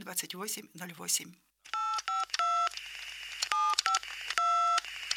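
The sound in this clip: Telephone keypad dialing tones from a caller ringing an opinion hotline: after a brief stretch of talk, a run of several short, steady beeps follows, each a clean two-part tone, grouped with small gaps between them.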